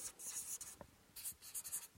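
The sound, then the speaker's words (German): A pen writing on paper by hand: quiet, scratchy strokes in a few short bursts with brief pauses between them, and no talk. “Ich schreibe das mal hin.”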